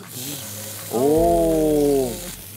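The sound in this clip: Meat sizzling in a frying pan next to onions, a bright steady hiss throughout, with a voice letting out a long drawn exclamation over it midway.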